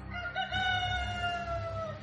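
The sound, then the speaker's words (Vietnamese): A rooster crowing outside at daybreak, one long, faint crow whose harmonic-rich tone drifts slightly lower toward the end over a low background rumble. “chờ tiếng gà trống gáy và tiếng chim hót líu lo bên ngoài báo hiệu trời sáng.”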